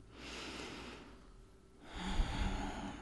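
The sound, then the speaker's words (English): A slow, deep breath taken during a guided moment of calm: two long, soft, airy whooshes separated by a brief lull, the second slightly fuller and rougher. Faint, with no talk. “Take a deep breath.”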